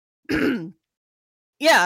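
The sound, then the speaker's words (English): A man clears his throat twice, two short gruff bursts separated by about a second of silence. “he clears his throat as you start to talk.”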